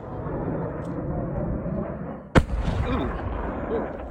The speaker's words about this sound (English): They saw the rocket roar straight up into the sky and quickly disappear against the clouds. Then, about 20 seconds later, the rocket tumbled down to Earth.